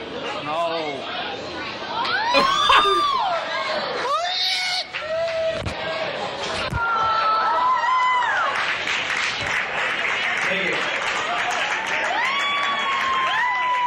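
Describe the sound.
Excited cheering and high shrieks from an audience after a public proposal, with scattered clapping and overlapping chatter throughout.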